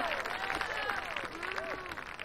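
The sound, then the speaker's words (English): An audience stands and applauds with steady, dense clapping, high whooping cheers rising and falling over the top. “Everybody stands and claps.”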